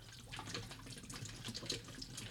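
Liquid glugs from a big bottle into a cocktail being mixed: a faint, continuous splashing pour that runs steadily throughout, with no talk over it.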